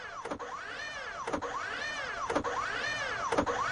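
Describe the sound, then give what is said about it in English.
Coin-operated kiddie ride running: an electric motor whine sweeps up and down in steady rocking cycles, with a knock marking each cycle roughly once a second, four in all, loud and continuous with no talk. “Here it is, Mom. I'll show you. If you'll just give me a quarter, please. Aren't you a little old for kiddie rides? No, no, I'm not. Check it out.”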